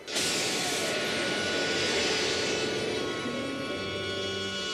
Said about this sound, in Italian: Capitano, nessuno ha mai invertito i motori a questa velocità. Perché nessuno è mai andato a questa velocità. Inverta i motori.